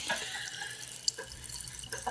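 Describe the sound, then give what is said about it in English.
Sparkling water poured into a glass makes a soft, continuous trickling hiss with a few small droplet ticks. It stays faint and steady throughout, with no talking. “That was the sound of Neil Young pouring sparkling water into a glass.”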